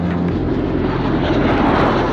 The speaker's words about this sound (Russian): Истребители летят клином.